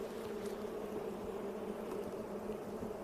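Honeybees buzzing at an opened hive during a frame inspection after smoking, a steady, dense, low droning hum that stays even throughout, fairly faint and with no voices.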